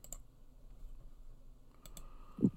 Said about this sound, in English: No, let me click on football.